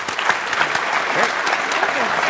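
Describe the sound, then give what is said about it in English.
An audience applauds to welcome presenters before a climate change talk. The clapping is brisk and continuous, and voices are heard over it. “And so let's give them a big hand and welcome them.”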